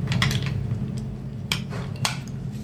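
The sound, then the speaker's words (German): The lid of a device holding an electronic module is pried open, giving a few sharp clicks and small rattles over a steady low hum. “Warte, ich muss mal den Deckel aufbekommen.”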